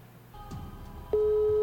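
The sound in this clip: Telephone call going unanswered, heard as a loud, steady, unbroken phone tone that starts partway through and holds to the end after a brief stretch of lower background noise.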